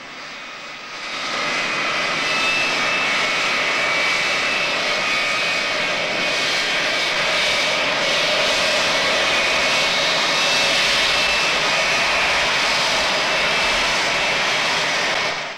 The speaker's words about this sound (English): He runs beneath the wing of a taxiing jet.